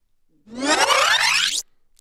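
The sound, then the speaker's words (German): A tape rewinds with a single whirring sweep that climbs steadily in pitch for about a second and stops abruptly, then silence. “Da wurde ein Band zurückgespult.”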